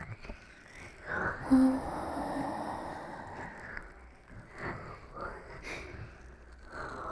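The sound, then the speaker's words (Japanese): A gentle exhale through the mouth during a guided relaxation breathing exercise: a soft, airy breath of a couple of seconds, followed by quieter breathy rustles. “深呼吸してみよっか。じゃあ口から息を軽めに吐いてみて。ほら、一緒に。”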